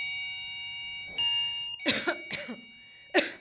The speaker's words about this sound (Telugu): ఎవరో దగ్గుతున్నారు, పెద్దవాళ్ళు వచ్చారని ఉంటాం.